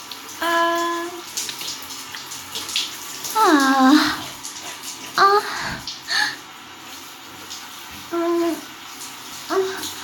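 Water splashes in a bathtub as someone is washed in a bath. Intermittent sloshing and pouring come in short bursts, with brief voiced sounds in between.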